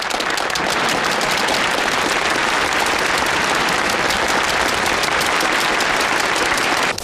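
Thunderous audience applause greeting the opening of a gala evening, a dense, loud, even roar of clapping sustained throughout before stopping abruptly at the very end.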